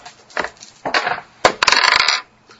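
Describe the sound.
Dice are rolled during a tabletop role-playing game, a few short clattering rattles that give way to a longer burst of tumbling clicks before stopping, with no talking.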